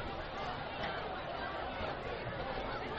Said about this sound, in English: Very good crowd here at Welcome Stadium tonight for this ball game.